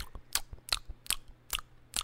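ASMR mouth noises: five crisp, wet crunching bursts in a steady rhythm, with softer clicks between them. The sounds are close and distinct, with no talking.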